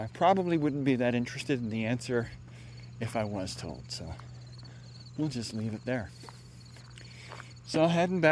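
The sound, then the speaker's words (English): Crickets chirping beside soybean fields on an end-of-summer day, a faint, steady high chirring running underneath a person talking throughout. “You might be able to hear the crickets chirping. I got soybean on both sides of me.”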